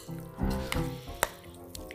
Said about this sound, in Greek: το μισό κουταλάκι σόδας φαγητού με το ξύδι. Ξανά ανακατεύω καλά